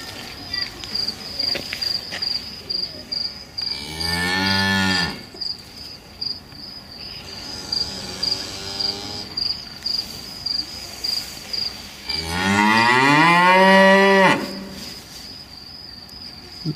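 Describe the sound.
Cows mooing on an experience farm: two long, loud, low moos stand out against a constant backdrop of rhythmic, high-pitched insect chirping.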